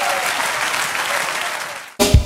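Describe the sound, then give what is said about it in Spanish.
A church audience applauding during a Spanish-language sermon: a steady wash of many hands clapping for about two seconds, then cut off abruptly, followed by a brief different sound. “Dale aplauso al Señor.”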